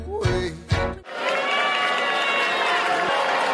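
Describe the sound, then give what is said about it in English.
A Broadway theater audience at the musical Hamilton reacts with mixed noise to the arrival of Vice President-elect Mike Pence. After a short burst of other sound, a loud, sustained crowd roar of clapping and shouting holds steady to the end. “The mixed audience reaction is from Vice President-elect Mike Pence's arrival to see the Broadway show with his daughters on November 25th.”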